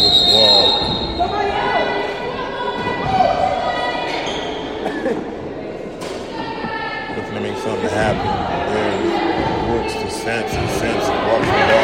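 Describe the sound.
A basketball being dribbled on a gym court during a girls' high school game, Clinton Lady Golden Bears vs Salem, with repeated bounces under steady crowd noise and voices.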